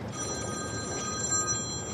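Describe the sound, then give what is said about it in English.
A cell phone rings faintly, a thin, high electronic ring that repeats steadily over a low background hum, with no voices. “Taylor's cell phone rings”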